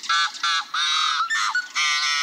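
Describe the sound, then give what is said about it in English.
A yellow-headed blackbird in Minnesota gives a gruff run of growls and toots: several harsh, buzzy, honking calls in quick succession, fairly loud and alone. “In the Midwest, at Rice Lake State Park in Minnesota, a yellow-headed blackbird offers its gruff repertoire of growls and toots.”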